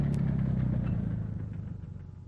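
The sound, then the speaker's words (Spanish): A motor vehicle on a road in late-afternoon sun, heard as a deep, steady engine rumble with a mid-pitched drone that gradually eases slightly in loudness over a couple of seconds, alone without voices. “Aminora su paso al oír aquel sonido, echándose al borde del camino para cederle al paso a aquel vehículo que siente aproximarse.”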